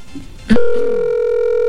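An unanswered telephone call: a sharp click, then a loud, steady ringing tone that holds unbroken to the end.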